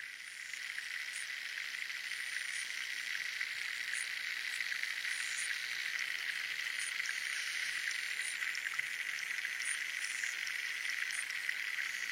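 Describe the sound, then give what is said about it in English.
Pond ambience filled with a steady chorus of frogs and insects, a continuous high buzzing drone with faint, regular chirps pulsing over it, even in loudness throughout. “Also, it sort of reminded me a little bit of a pond. So here's a recording of a pond.”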